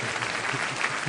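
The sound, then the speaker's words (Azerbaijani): Audience applause fills the whole moment with dense, steady clapping from many hands, even in loudness throughout. “Bir daha alqışlayın. Bir de. Hoşunca. Bir daha alqışlayın.”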